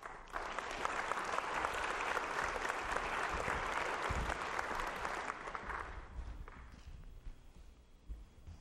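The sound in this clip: Church audience applauding to welcome a speaker, a full, vigorous burst of clapping that holds strong for several seconds, then thins and fades out toward the end.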